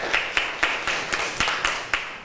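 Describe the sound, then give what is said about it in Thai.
Students in a classroom clap for a classmate who has just presented, a faint run of evenly spaced, sharp claps in a steady rhythm with no talk over it. “ค่ะเก่งมากค่ะปรบมือให้เพื่อนหน่อย”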